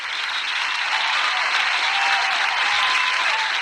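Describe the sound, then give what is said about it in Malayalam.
Audience applause rolls on continuously, a thick, even roar of many people clapping with no breaks and a steady loudness. “ഒരു നല്ല കൈയടി കൊടുക്കൂ.”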